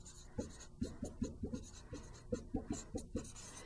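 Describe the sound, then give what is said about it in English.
Writing on a board produces many short scratchy strokes and taps in an uneven rhythm. The sound is fairly faint and plays alone, with no talking. “let me see if I can find a place to write that on this board”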